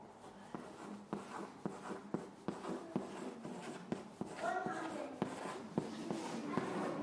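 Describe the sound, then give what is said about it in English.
Numbers being written up for a class, heard as many short scratchy strokes and light taps in an uneven rhythm, with no talking over them. “I'm going to write up how many stars scientists think that there are. Let me just write them up here.”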